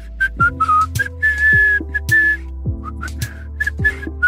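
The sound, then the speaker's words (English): A person whistles a string of bright, clear notes. Most are short and clipped and a few are held longer, over a steady low humming tone. “I could whistle. And I did whistle. I did whistle again and again.”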